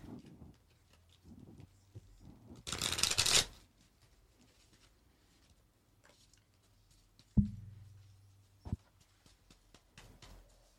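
A deck of ordinary playing cards shuffled in one short, crisp, crackling burst, followed later by a couple of soft knocks in otherwise quiet surroundings.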